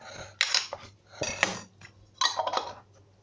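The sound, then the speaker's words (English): Metal clatter of a wok handled on a stove while oil heats. Three short bursts of clanking and scraping come at uneven intervals, separated by near-quiet gaps, with no speech. “So I'm just going to heat I've got a wok here, but you can use a regular frying pan or anything you can basically heat up and put some oil in.”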